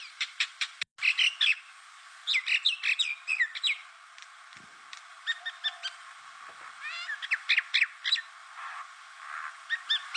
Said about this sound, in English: This is the sound of the common minor bird, also known as the Indian minor bird.